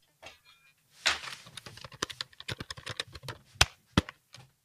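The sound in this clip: Typing on a computer keyboard while entering a question on a website, many quick, faint, irregular key clicks in uneven bursts, with a few sharper louder strikes near the end.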